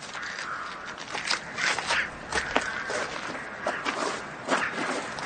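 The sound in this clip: Footsteps of people walking: a series of soft, irregular treads and light scrapes, uneven in loudness, with no clear talk over them.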